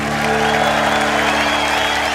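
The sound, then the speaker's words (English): Loud, steady audience applause for a blues band at a live jazz festival concert on a lakeside stage in Montreux, with sustained instrumental tones ringing beneath the clapping. “How about a big round of applause for my band up here on the stage, huh?”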